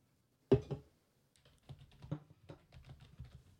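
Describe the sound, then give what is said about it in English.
Fingers type on a computer keyboard. One sharp, loud key strike is followed by a brief pause, then a run of many softer, irregular keystrokes and clicks. “Type in Ebony.”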